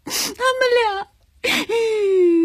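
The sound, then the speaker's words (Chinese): A young woman crying and sobbing: two sharp, breathy gasps, each followed by a drawn-out, wavering wail, the second one long and sliding slowly downward. “别哭了。”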